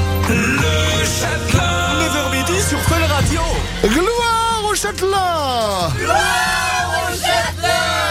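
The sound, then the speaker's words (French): A group of people shouts and yells loudly and without pause, voices swooping up and down in pitch in a continuous roar of cheering. “Oh, vous avez crié plus fort qu'hier, c'est canon ça.”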